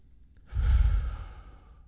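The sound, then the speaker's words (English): One deep breath drawn in and let out, a breathy rush with a low rumble that swells after a brief quiet start and then slowly eases off, with no talk. “Take a deep breath and think of the Lord's presence closer to you than that breath.”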